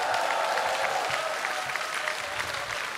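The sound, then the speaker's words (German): Concert audience applause for the technical crew: a dense, even wash of clapping from many people that stays steady for a few seconds with no talk over it. “Ich möchte über den Spezialapplaus bitten für das großartige Technikteam, das diesen herrlichen Sound heute hier macht.”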